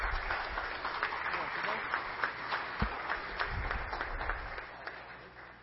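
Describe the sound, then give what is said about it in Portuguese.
Audience applause at a ceremony honoring a man for his fire-department work, many hands clapping in a steady, moderately loud patter with some voices underneath. “Uma salva de palmas para o Gui também.”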